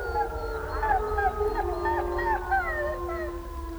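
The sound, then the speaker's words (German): Several wolves howl together at night, their long, overlapping, wavering tones sliding up and down in pitch above a steady low rumble. The calls are sustained and continuous with no talk. “Wölfe in der Nacht, meilenweit hörbar.”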